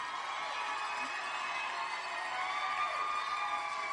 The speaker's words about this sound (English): Yes, you can stand up and cheer at this point if you like.